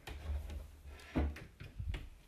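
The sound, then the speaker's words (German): A cabinet door being opened: a few short clicks and knocks over a steady low hum. “ich jetzt diesen Schrank hier öffne”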